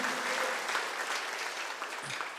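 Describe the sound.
Applause from a church audience during a Sunday sermon service: dense, steady clapping that keeps going at an even level from start to finish with no breaks.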